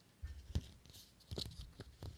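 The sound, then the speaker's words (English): Pages of a paper script being turned give several soft, crinkly rustles and flicks, faint and quiet. “What was that? It was me turning the pages of the script.”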